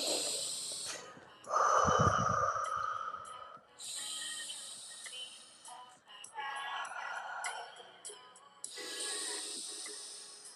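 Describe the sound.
Slow, deep breathing during a guided breathing exercise: a few long, airy inhales and exhales with soft hissing and a snort-like rush of air, heard alone without talk.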